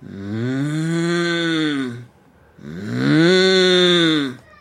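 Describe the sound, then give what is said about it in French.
A human voice imitates a mooing cow with two long, low moos separated by a short pause. Each arches up then down in pitch, and the second is louder. “On imite la vache qui mugit.”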